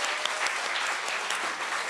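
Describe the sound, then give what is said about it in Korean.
Audience applause at a concert, following the introduction of the final piece: dense, steady clapping that stays loud and even throughout, with no gaps. “박수 한번 주세요.”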